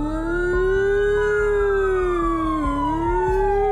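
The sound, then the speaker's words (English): A siren wails in one loud, sustained tone with strong harmonics, climbing gently, dipping briefly near the end and recovering, with no voices. “a siren starts.”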